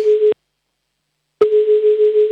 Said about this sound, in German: So, nächster Anruf ist dran, der geht nach Wien.